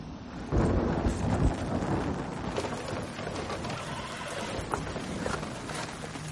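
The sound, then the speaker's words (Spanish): Rain falling as a constant dense hiss, with a heavier rumbling surge early on and scattered brief thumps, no voices, heard alone throughout. “Llueve.”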